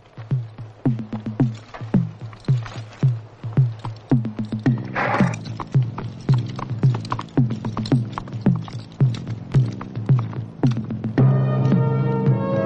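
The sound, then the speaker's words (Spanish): Horse hooves clip-clop steadily as a rider in a helmet sets off on horseback, with many quick, regular hoofbeats continuing throughout. “El joven se pone el casco y se marcha a caballo.”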